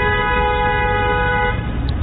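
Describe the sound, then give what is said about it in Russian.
A car horn in the Khabarovsk region blares in one loud, sustained, steady multi-tone blast that holds for the full two seconds without a break. “Сигналит. Чем-то недовольны. Наверное, моим приездом.”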